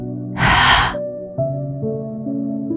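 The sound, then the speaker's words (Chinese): Forceful exhale through the mouth during a meditation breathing exercise, a single loud, breathy rush of air lasting about half a second, followed by soft, sustained musical tones. “嘴巴大力吐气。”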